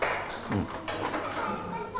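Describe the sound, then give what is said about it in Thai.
Students in a classroom briefly clapping for their classmates, a short, faint patter of hand claps with some voices mixed in. “ปรบมือให้เพื่อนหน่อยเยี่ยมมากนะครับ”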